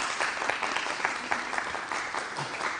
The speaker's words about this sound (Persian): یه دست برای عروس خانم بزنید